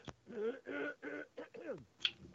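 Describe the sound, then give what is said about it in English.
Throat clearing by a man, a few faint, gravelly rasping bursts in an uneven rhythm, ending with a short sharp click. “If I can keep the goobers out of my throat here”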